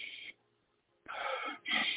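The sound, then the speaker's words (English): Deep breathing, with a few loud, airy, rushing breaths split by a near-silent pause, the last two coming close together. “Let's breathe.”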